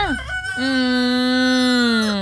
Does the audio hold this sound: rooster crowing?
yes